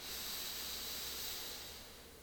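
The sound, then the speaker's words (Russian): A deep breath drawn in during a guided relaxation, heard as a steady, soft airy hiss lasting about two seconds and tapering slightly at the end, with no talking. “Давайте еще раз почувствуем себя в теле, сделаем еще один глубокий вдох.”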